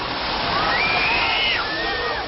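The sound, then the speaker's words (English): Chicken bouillon gushing out of a pump line in a loud, continuous rushing pour, splashing and sloshing without a break. “Oh, my God. It's not water. It's chicken bouillon.”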